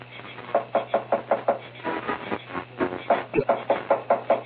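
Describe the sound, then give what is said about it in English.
Heavy pounding on a door as police demand entry, many loud rapid knocks in bursts separated by brief pauses, the blows landing in a strong, uneven rhythm. “Go ahead, start pounding on the door.”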